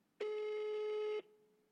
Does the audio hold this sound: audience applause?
no

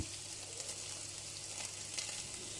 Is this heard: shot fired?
no

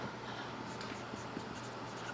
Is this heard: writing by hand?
yes

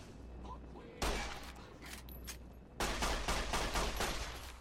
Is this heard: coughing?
no

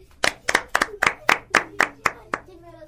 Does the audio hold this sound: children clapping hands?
yes

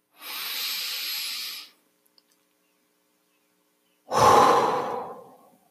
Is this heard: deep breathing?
yes

